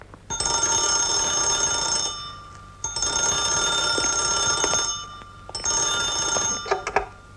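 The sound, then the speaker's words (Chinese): A telephone bell rings in three long bursts separated by short pauses. The tone is bright, steady and shrill, with no voices. “喂， 请孔常委听电话。”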